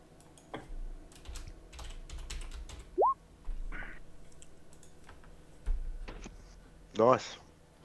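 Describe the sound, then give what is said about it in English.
Computer mouse clicks as a player selects a character in an online game, a few faint, sharp, irregular clicks scattered over a quiet background. “I click on him. Mavis Eleanor Slepney. Just a second. I got to zoom in here so I can actually click on my character correctly.”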